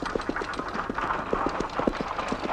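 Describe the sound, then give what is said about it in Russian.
Hooves of horses harnessed to a plough clop steadily across a field, many even, regular hoof strikes in a continuous rhythm over a low background rumble. “На поле работает трактор и запряженные плугом лошади.”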